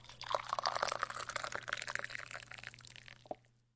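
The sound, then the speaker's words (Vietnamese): Tea being poured for guests by a monk at a temple table, a steady, soft liquid stream lasting about three seconds over a low hum, ending with a light knock and then quiet. “Thầy châm trà mời khách.”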